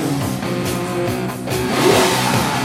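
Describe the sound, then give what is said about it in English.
A troubled 1972 Lamborghini car engine runs with a loud, continuous, rough roar that holds steady and then swells louder toward the end. “That is Eddie's 1972 Lamborghini, but he's having trouble with it.”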